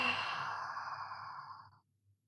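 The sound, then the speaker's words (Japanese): A long, audible breath out like a sigh during a guided relaxation exercise, fading away, followed by a brief, faint breath near the end. “吸って吐いて。”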